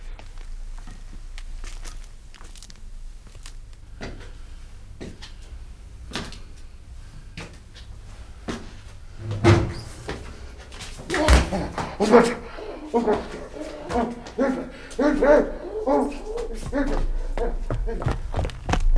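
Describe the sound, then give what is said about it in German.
A man falls against a door with a heavy thud, amid a few knocks and scuffs, while voices speak. “Er ist auf mich gefallen. Er stand hinter der Tür.”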